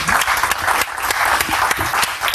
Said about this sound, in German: Applaus für Jan Kurze und Fide Merkel.